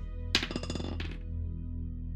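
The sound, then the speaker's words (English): Dice picked up from a table during a tabletop game make a short burst of light clattering and clicking, about a second long, followed by a low, steady background hum. “He's picking up dice very meanly.”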